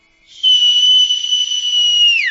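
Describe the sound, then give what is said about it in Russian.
A single loud whistle blown as a signal holds one steady high pitch for nearly two seconds, then drops sharply at the very end. “Услышал младший свист и понесся, как заяц.”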